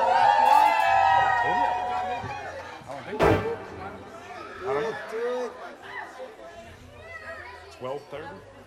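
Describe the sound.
Women in a live show audience cheer and scream, with a loud burst of high, shrill voices at the start that settles into scattered shouts and chatter.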